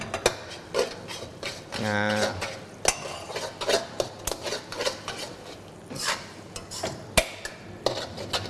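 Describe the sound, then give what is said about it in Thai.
Noodles with sauce are stir-fried in a pan, with a metal utensil clattering, scraping and tapping irregularly against the pan at a moderate level. “แล้วเราก็ดันเส้นนะครับไปไว้ด้านข้าง”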